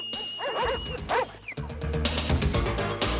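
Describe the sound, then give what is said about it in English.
Doberman dogs barking, a run of sharp, fairly loud barks and yips that carries into a dense, noisy stretch of continued barking and commotion. “while the dogs are distracted, barking away at a different section of the wall”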